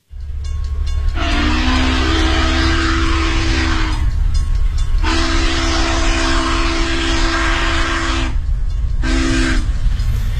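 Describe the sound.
A train pulling into a station sounds its horn in three blasts, two long and a final short one, each a loud steady tone over a constant deep rumble of the moving train.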